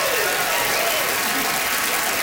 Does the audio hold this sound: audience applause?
yes